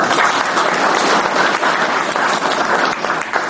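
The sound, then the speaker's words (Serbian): An audience applauds the people being thanked at a celebration, with thick, continuous clapping from many hands that stays loud and even for the whole stretch. “zavisa bi ovom priliku volio da im uputimo jedan aplauz.”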